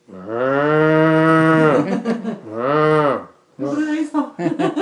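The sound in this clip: People on all fours in a drama imitate a cow with their voices. They give two long, drawn-out, harmonic moos, then a run of choppier, broken lowing sounds.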